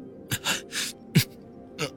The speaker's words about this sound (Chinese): 话还没说完，江瑶又打了个喷嚏。